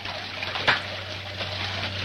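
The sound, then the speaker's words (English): A shower runs with a steady, even hiss of spraying water, continuous throughout, with a low hum underneath and one brief bump early on. “Later, David takes a shower.”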